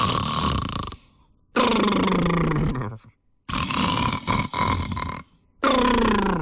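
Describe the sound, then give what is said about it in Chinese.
A voice imitates thunderous snoring: four loud, rough, rasping bursts separated by brief pauses, each long and growling. “鼾声如雷呀，打着呼噜，一哈三嘟噜的呼噜。什么叫一哈三嘟噜呢？就这样”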